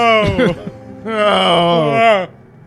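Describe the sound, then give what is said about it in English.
A woman's big, loud yawn as she stretches at her desk in an empty cubicle office: a short voiced start, then a long, drawn-out groaning tone that trails off, heard alone. “She let out a big, loud yawn”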